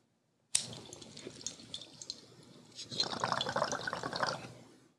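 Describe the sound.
Water bubbles in a bong as cannabis is smoked, a soft continuous gurgle that grows fuller and busier during the second half before tapering off.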